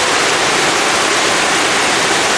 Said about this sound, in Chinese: 是不是很有壶口瀑布的感觉啊？但是这真的不是黄河，而是清水河。